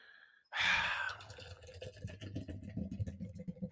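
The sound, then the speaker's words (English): Non-alcoholic beer being poured out: a sudden gush of liquid gives way to gurgling, splashing and dripping. It is fairly faint and alone. “And that sound you hear is me pouring the whole beer out because I'm capping it off with the Guinness Zero Alcohol.”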